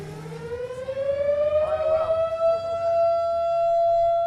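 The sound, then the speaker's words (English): A civil defense siren wails in Nome, Alaska, as sled dog mushers finish the Iditarod race, its loud tone rising in pitch and then holding a steady, sustained howl. “That's the siren that sounds in Nome when the mushers come in.”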